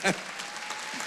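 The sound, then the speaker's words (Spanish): Applause from a church audience for a great-grandmother, a brief burst of even clapping that follows a short spoken sound at the very start. “Denle un aplauso a la bisabuela.”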